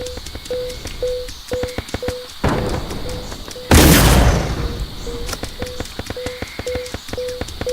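A single loud shotgun blast in a video game on a battlefield map, a heavy burst of noise set among repeating electronic beeps and sharp clicking game sounds.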